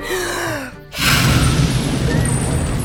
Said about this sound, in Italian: E di nuovo esce una gran lingua di fuoco dalla sua bocca e tutto si rischiara, come se qualcuno avesse acceso la luce.